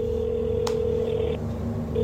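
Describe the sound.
A telephone is being dialed after an AI voice scam call, giving steady electronic tones with a brief click partway through.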